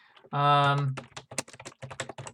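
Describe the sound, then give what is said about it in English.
Typing on a computer keyboard: many quick, irregular keystroke clicks follow in uneven bursts after a short sustained tone at the start. “We're going to type in spooky fan fiction”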